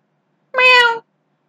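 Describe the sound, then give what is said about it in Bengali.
A cat's meow, one clear mid-pitched cry about half a second long, heard alone with no talk around it. “প্রথমে মনে হইল Wellington হঠাৎ বিড়ালত্ব প্রাপ্ত হইয়া আমার নিকট আফিঙ্গ ভিক্ষা করিতে আসিয়াছে”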